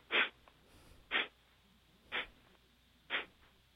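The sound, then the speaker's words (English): Four sharp exhalations blown out through the nostrils during a breathing exercise, evenly spaced about a second apart, each a short breathy hiss with quiet pauses between. “so you're going to be blowing the breath out through the nostrils”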